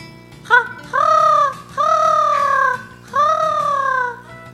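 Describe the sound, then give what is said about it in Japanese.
A human voice imitates a crow's caw: a short yelp, then three long, nasal, drawn-out calls that arch in pitch, loud over a low steady hum. “カラスの鳴き声。”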